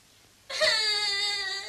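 A baby cries, a sudden steady wail that starts after a brief quiet lead-in and holds a high, even pitch to the end.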